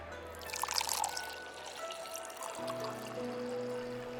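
A drink being poured into a larger glass: a faint, soft, steady trickle of liquid with a thin hiss and a low background hum.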